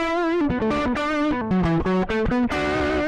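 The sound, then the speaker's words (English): A fuzzy, distorted electric guitar, plugged directly into the board, plays a quick melodic line of many single notes that step up and down in pitch. The tone is loud, buzzy and bright, with no voices. “fuzzy, you know, guitar sound that you could get going direct into the board with it.”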